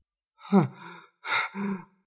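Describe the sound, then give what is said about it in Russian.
A woman gasps for air after holding her breath while reading a letter: two breathy, voiced bursts, a sharp intake and then a softer follow-up breath, faint and alone. “Я хватаю ртом воздух, наконец-то заметив, что не дышала во время чтения.”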